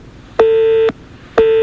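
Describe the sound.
A telephone line tone sounds after a caller hangs up during a call-in radio show. Two loud, steady beeps at the same pitch are heard, each about half a second long, separated by a short silence; the second runs to the end.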